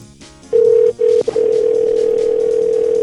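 Steady telephone dial tone heard while a call is being placed. It starts after a short quiet lead-in, breaks off briefly twice, then holds as one loud, even, continuous tone with no voices.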